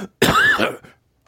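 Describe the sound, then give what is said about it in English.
A single loud cough, slightly drawn out, with a rough throat-clearing quality and a pitched vocal edge, followed by quiet. “excuse me, cough”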